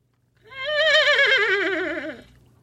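A horse neighs in one long, loud, wavering whinny that lasts about two seconds, its pitch trembling throughout and dipping near the end before cutting off.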